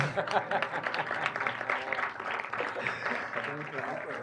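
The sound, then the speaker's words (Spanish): Audience applause at a conference held as a tribute, a steady spread of many hands clapping at moderate volume while people talk over it. “Un aplauso también a los visitantes. Antonio, un aplauso a Antonio, hombre.”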